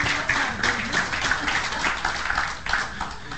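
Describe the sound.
An audience in a church claps to welcome a speaker to the pulpit, a dense, steady patter of applause that runs throughout at moderate loudness.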